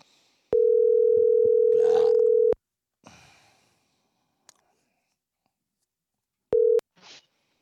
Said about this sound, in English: it is that time to make that phone call to that man, that myth, that legend, the one and only Joe Murphy.